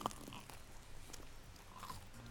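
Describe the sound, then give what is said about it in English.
Faint, soft chewing of a thick, heavy Yorkshire pudding whose dense batter is laden with grease, heard as a few muffled bites and crunches with no talk. “is now chomping her way through.”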